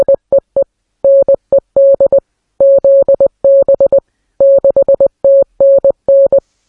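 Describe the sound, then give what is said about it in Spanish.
Morse code beeps from radio messages received in 1930: a steady mid-pitched tone keyed on and off in many short and long bursts with uneven gaps, loud and alone, with no voices. “Y según el genio, esos mensajes, esos pitidos, ese código Morse venía de fuera de la Tierra.”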